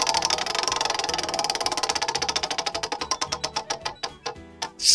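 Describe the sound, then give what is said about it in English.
A prize wheel spun to pick a game category gives a rapid run of ticking clicks that gradually slow and spread apart as the wheel loses speed, ending in a brief burst of noise. “So may as well spin the wheel this week. Do you want to spin it?”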